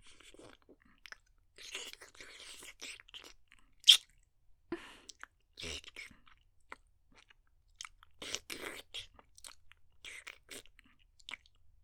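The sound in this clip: Food being chewed and eaten: many irregular crunchy bites and moist chewing sounds, mostly faint, with one sharp louder crunch standing out. No talking.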